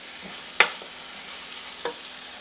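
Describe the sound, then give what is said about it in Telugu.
Chicken pieces with garam masala and other spices stirred in a hot pan: two distinct scraping strokes of the spoon over a soft, steady frying hiss. “So ఇవన్నీ వేసేసాం కదా so బాగా కలుపుకొని so బాగా కలపండి”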